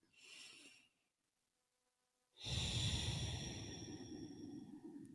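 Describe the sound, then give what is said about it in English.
Deep breaths taken during a quiet grounding moment: a short soft breath, a brief silence, then a long, loud, airy breath that holds steady and slowly eases off, with no talking. “find a place to get grounded, maybe get your journal, take a few”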